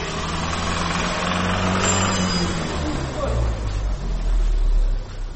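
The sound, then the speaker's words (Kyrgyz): An engine runs inside a car repair workshop, giving a steady low rumble with a few tonal hums that swells slightly louder near the end. “Бул шаарда 4 жыл мурун ачылган Геркулес деп аталган машина оңдоочу жай.”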